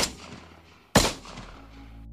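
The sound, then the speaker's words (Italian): Gunshot from a Taurus Ferox 765 rifle: one sharp, loud crack with a decaying tail, heard alone without voices. “Federico ha comprato un fucile nuovo, Taurus Ferox 765”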